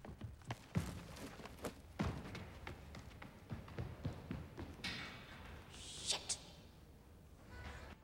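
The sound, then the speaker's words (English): Footsteps of a boy running away, many quick, uneven thuds and taps that vary in loudness, with a few heavier stomps among them. “Billy gets to his feet, then turns and glares at Mrs. Wilkinson. No! He runs away.”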